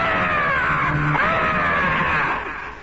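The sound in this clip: A human voice imitates a creature's shriek: one loud, sustained, high, harsh scream held for nearly three seconds before fading slightly at the end.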